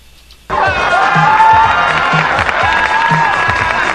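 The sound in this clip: A live audience cheers and applauds, bursting in after half a second of quiet. The sound stays loud and sustained, with whoops and a steady rhythmic low thumping beneath.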